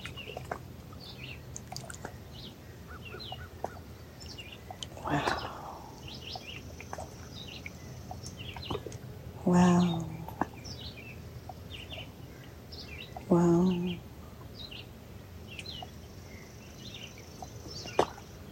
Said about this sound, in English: the birds are saying, be light, be light, be light.